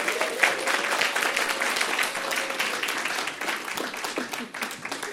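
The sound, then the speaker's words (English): An audience applauding, with dense, steady clapping that runs throughout at a moderate level and a few voices calling out over it. “Make some noise for Sally Ann as she comes up.”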